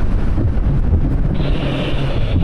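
Port Erin RNLI inshore lifeboat on exercise at speed, its steady loud low rumble and rushing water buried under heavy wind buffeting the microphone, continuous with no voices.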